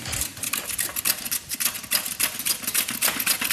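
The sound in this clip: A knife slices carrots into thin slices with many quick, crisp taps in a fast, fairly even rhythm, each cut a sharp, bright click against the board.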